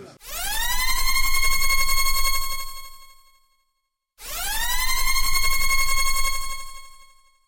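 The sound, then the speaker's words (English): A klaxon-style siren sounds in two long, loud wails. Each sweeps upward in pitch, holds a bright whining tone, then fades, with a short silent pause between the blasts. “Sound the spoiler klaxon.”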